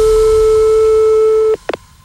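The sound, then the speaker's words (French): A steady, mid-pitched telephone tone holds for about a second and a half while the police emergency number is dialed, then cuts off, followed by a few short blips. “Je préviens la gendarmerie. Je vais composer le 17, monsieur. Ah, bah, je fais le 17 avant vous.”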